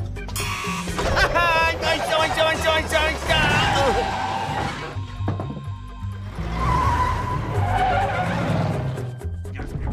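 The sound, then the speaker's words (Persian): A car engine revving hard with squealing tires as the car accelerates to chase a police van. It is loud throughout, with screeching tonal whines at the start and again later, and some voices mixed in. “ون پلیس رو دارم جلوتر میبینمش، داره خیلی سریع میره. پدال گاز رو فشار میدم تا ببینیم میتونیم بهش برسیم یا نه.”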